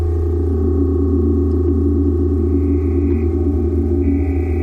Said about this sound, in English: And these different sounds coming in, are these different oscillators? Different oscillators, and I have a mixing desk on the bottom so I can fade in the different sounds.